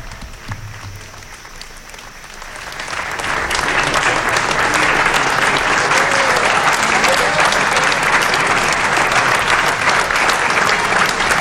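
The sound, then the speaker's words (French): Crowd applause greets Pope Leo XIV on his visit to France. After a quieter opening of about three seconds, the clapping swells in and then holds steady and full. “Le pape les attrape et les passe à ses assistants. Voilà qui arrive sous des applaudissements clairsemés,”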